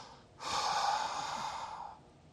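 A single long breath taken when an audience is invited to breathe, a steady airy whoosh lasting about a second and a half, fairly clear and alone with no talk.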